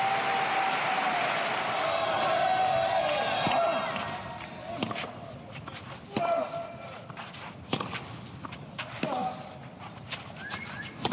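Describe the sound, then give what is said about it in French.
Applause and cheering from a tennis crowd giving Jo-Wilfried Tsonga an ovation after the last point of his career. A dense, sustained roar for about four seconds thins into scattered claps and thumps. “Voilà, c'était le dernier point de l'immense carrière de Joe Wilfried Tsonga. Derrière Yannick Noah avec ses 18 titres, l'ovation ultra méritée.”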